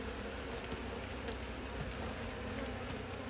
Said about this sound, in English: Now the bees are getting more angry